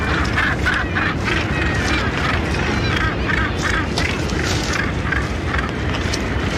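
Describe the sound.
Northern gannets calling at a crowded nesting colony on Bass Rock, a continuous loud din of harsh, overlapping croaks heard under a narrator's voice.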